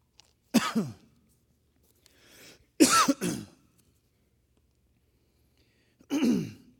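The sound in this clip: Coughing and throat clearing from a tickle in the throat: three raspy bursts, the middle one a quick double, separated by silence and fairly loud, with no talk.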